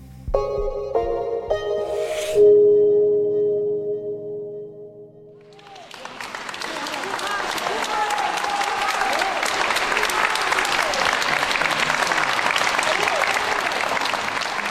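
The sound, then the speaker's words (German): Loud, sustained applause fills a courtroom. Dense clapping runs steadily for about nine seconds after a short musical passage. “dass vor einem Gericht oder in einem Gericht so laut applaudiert wird, das ist eher außergewöhnlich.”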